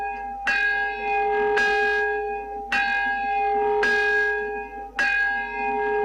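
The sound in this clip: Bell rings at a memorial ceremony in Nagasaki for atomic bomb victims. It is struck five times at a steady pace of about one per second, each clear, resonant tone overlapping the lingering hum of the one before, with no talking.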